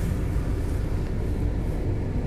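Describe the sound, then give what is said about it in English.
A car engine idling while warming up with the heater running, heard as a steady low rumble with broad hiss and no change in level. “the heater is on. I'm warming up the car”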